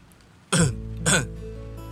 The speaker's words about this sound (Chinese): 老婆婆干咳了两声，稍稍抬头看了看天空，假装什么都没听到。